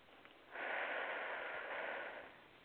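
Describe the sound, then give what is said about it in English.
A single long, deep inhale through the nose during a guided affirmation session: airy and steady, swelling in and holding for about a second and a half before fading, with no talking. “Take a nice deep breath.”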